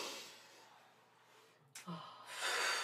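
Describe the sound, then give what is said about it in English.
A deep breath drawn in, heard alone as a soft airy rush that swells and holds through the final half second, preceded by a few faint brief sounds. “Just, like, sitting there and just, like, taking that nice deep breath in”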